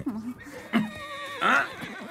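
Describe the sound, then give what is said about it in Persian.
A horse whinnies in a few short, nasal calls, the loudest and highest-pitched burst coming near the end, with voice-like sounds mixed in. “زود باش بیا، بیا اینجا، تو اسب منی دیگه.”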